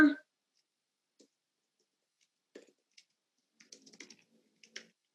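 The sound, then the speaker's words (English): Keys tap on a computer keyboard as a search is typed: sparse, faint keystrokes at first, then a quicker cluster of taps toward the end, after a brief sound of voice at the very start. “You go to this website. You type in how to”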